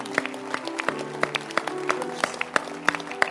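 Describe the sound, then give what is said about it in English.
Church audience clapping their hands in a steady rhythm, with sharp claps landing roughly every third of a second over a sustained tonal backdrop. “These are keep clapping your hands. I didn't say stop.”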